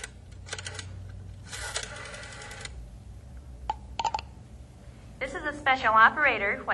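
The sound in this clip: A telephone is dialed: a few short mechanical clicks and clattering bursts separated by pauses, then a voice begins talking.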